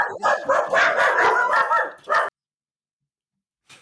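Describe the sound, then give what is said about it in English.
A person imitates a dog, giving a quick run of loud, yappy, bark-like cries in close succession, then stopping abruptly into silence, with a faint short sound at the very end. “that wasn't me, I was just pretending to bark, it was good.”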